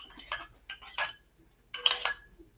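Utensils clink and scrape against a bowl as a spicy sauce for a wrap is mixed, in a few short chinking bursts separated by quiet gaps.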